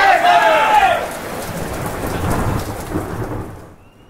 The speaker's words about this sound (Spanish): Va a pasar el viento, un día de tormenta